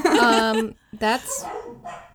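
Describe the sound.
Dogs barking in a few loud bursts, with voices heard alongside the barks.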